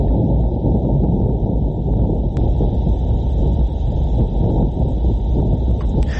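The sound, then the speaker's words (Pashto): Wind on Mars, recorded by rover instruments: a steady, loud, low rushing rumble that holds without break, with a faint thin whine sitting above it. “پلټونکي وسیلې د لومړي وار لپاره په مریخ کې د بادونو غږونه ثبت کړي دي.”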